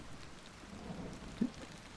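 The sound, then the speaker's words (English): Rain falling as a steady, soft hiss and patter, with one brief low thump partway through. “Well, the rain's gonna pick up soon.”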